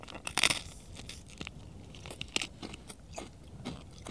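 A crunchy negi miso rice cracker is bitten and chewed, giving many crisp, crackling crunches: a louder bite near the start, then lighter, irregular crunches with no talk.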